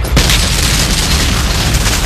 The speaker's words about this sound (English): Toynbee twists the detonator.